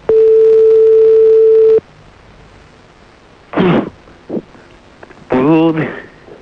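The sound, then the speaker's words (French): Telephone ringback tone while waiting for someone to pick up: one steady, unbroken mid-pitched tone lasting nearly two seconds, then a quiet pause and short bursts of talk. “Pourquoi t'as coupé? Allô? J'espère qu'elle va décrocher.”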